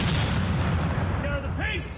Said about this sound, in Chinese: 而这一门是16世纪的火炮， 开火！ 17世纪的火炮， 开火！